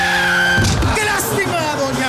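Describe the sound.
Tires squeal as a minibus skids toward a pedestrian in a dramatized road accident, a loud harsh screech that holds its pitch and then fades.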